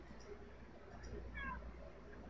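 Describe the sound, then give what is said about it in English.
A cat meows once, a short, faint cry heard over a steady low background hum. “Somebody's cat just answered me.”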